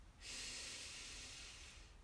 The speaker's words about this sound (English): Breathe in.